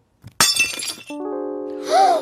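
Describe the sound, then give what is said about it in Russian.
A ceramic mug breaks by accident with one sharp crash and a brief clatter of pieces, followed by a sustained musical tone. “Мама! Я случайно разбил кружку.”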